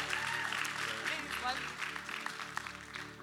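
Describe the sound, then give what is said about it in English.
An audience claps steadily to welcome a speaker at a church service, the applause forming a dense rustle that fades slightly toward the end, with voices and tonal sounds running underneath. “If we could, let's put our hands together today and let's welcome her as she gives the word today.”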